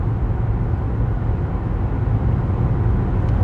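A car being driven gives a steady, even low rumble of road and engine noise that runs unbroken through the whole stretch, with no distinct separate events.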